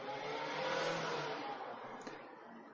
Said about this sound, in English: riding a motorcycle in Chicago.